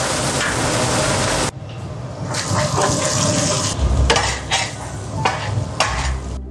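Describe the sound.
Chopped scallion and ginger sizzle in hot oil in a pan, a steady loud frying hiss mixed with stirring and scraping noises that continues throughout.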